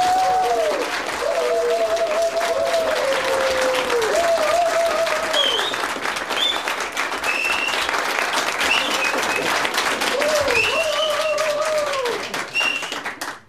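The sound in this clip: Audience applause and hooting at an entertainment show: steady, dense clapping runs for about thirteen seconds while repeated whistle-like hoots rise and fall above it. The applause tapers off at the very end.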